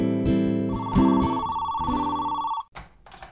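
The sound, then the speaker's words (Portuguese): Telephone ringing loudly with a rapid, metallic bell-like trill and a sustained tone, continuing for a couple of seconds before cutting off abruptly. “Um dia, recebemos um telefonema especial.”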